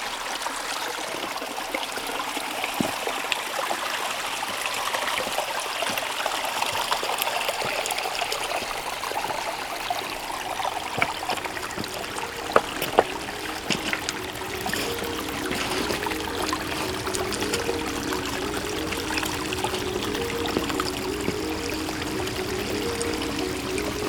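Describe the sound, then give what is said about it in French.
Clear, cool water trickling in a stream, a steady, continuous babble and splash of flowing water that stays even in level throughout, with no voices. “Où ruisselle une eau limpide et rafraîchissante.”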